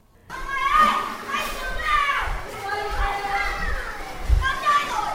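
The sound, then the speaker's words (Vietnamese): Children play at the Kidlun indoor play area, a high-quality children's play centre. Their overlapping shouts, squeals and chatter form a steady, busy din, with occasional dull thumps underneath. “hiện tôi đang có mặt tại khu vui chơi trẻ em liên hoàn trong nhà chất lượng cao Kidlun”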